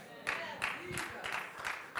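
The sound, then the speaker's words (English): A golf clap from a church audience: quiet, polite applause with sparse, evenly spaced claps, soft and restrained throughout. “Thank you for that golf clap.”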